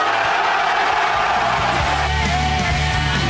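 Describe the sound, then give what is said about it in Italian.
A crowd cheers and yells in a dense, continuous roar of many voices that stays loud and steady throughout, with no single voice standing out. “Che c'è da esultare? Perché esultano?”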